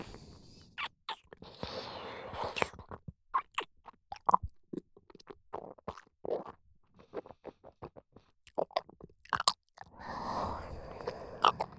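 Wet mouth and eating sounds made close to the ear: many soft smacks, licks and clicky chewing noises in irregular bursts, with short pauses between clusters and denser, sustained wet passages near the start and end.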